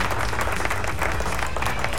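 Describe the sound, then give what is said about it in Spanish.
Applause from a crowd: dense, steady clapping that stays even in loudness for the whole moment. “Un aplauso a todos los que nos escuchan”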